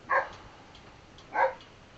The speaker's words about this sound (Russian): Ну вот собака... Так реагирует на ветер.